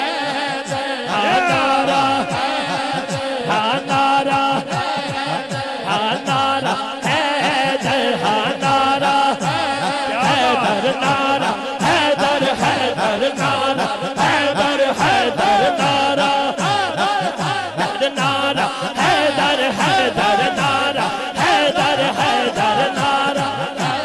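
A crowd chanting a slogan in unison at a religious gathering, loud and rhythmic, with the same chant pattern repeating steadily from start to end.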